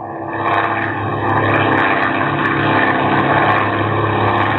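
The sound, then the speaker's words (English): A propeller airplane engine drones steadily in flight as the plane climbs to 5,000 feet over water, with a passenger holding a gun on the pilot. The drone is loud and continuous throughout, with no talk. “You climb to 5,000 feet. His hand is steady, the gun still in your back. You cut the throttle and drift for a moment, then lurch and nose straight down.”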